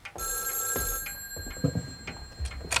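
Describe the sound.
An old-style telephone bell rings in one sustained, high, metallic burst. A few soft knocks and clicks follow in a quiet room.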